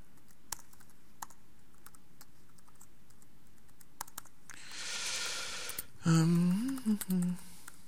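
Sparse key clicks from someone typing code on a computer keyboard, faint and irregular, followed near the end by a stretch of hiss and a brief tonal sound.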